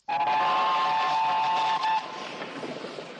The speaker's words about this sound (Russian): По узкоколейной железной дороге проезжает паровоз с двумя вагонами.